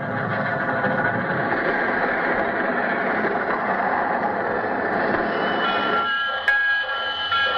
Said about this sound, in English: Our story begins with our hero's train pulling into the railroad station.